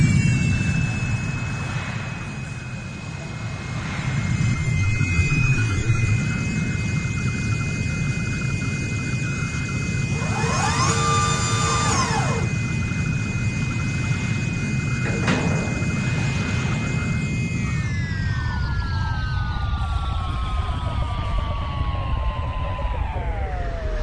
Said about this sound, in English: Clear the deck. Shuttle inbound. Decompression alert. Clear the deck.